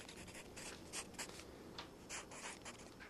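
Faint scratching of handwriting as a girl writes a poem for homework in her room, in short uneven strokes and bursts with small pauses between them.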